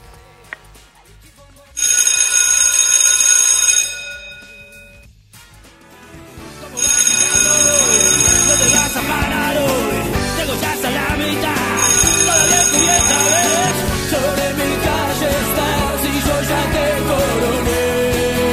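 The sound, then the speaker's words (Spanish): A bell rung by an operator gives three bursts of bright, steady ringing separated by pauses, loud against a busy, continuous background sound that fills the later part. “Ahora le pedimos a nuestro operador que toque el timbre y nos tomamos un recreo.”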